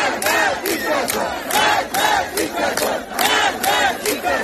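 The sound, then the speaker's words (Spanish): Protesters chant in the streets of Tehran, Iran. Many voices shout together in rhythmic bursts that repeat at a steady, quick pace, loud and forceful throughout. “Este es el sonido de Teherán, pero las protestas se han repetido por 131 ciudades de las 31 provincias de Irán.”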